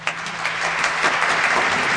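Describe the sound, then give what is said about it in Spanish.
Audience applause begins with a sharp onset and continues as a dense, even patter of many hands clapping at a strong, steady level. “los aplausos adentro y afuera de Aguafuertes.”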